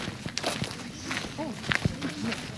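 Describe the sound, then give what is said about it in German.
Footsteps of children from a forest school walking through the Niendorfer Gehege woodland: many soft, irregular steps with a few quicker, running-like patters, mixed with voices talking throughout. “Die Kinder der Waldschule laufen durch das Niendorfer Gehege. Jeden Tag machen sie eine Entdeckungsreise durch das Waldgebiet.”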